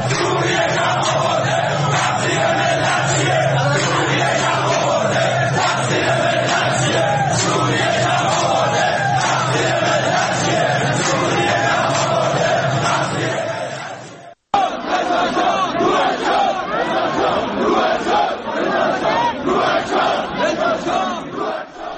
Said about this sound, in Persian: مردم میدن بنزین گرون شده، فقیر فقیرتر شده، یا شعارهایی میدن علیه کمک‌های جمهوری اسلامی به گروه‌های شبه نظامی در فلسطین و لبنان یا خود حکومت سوریه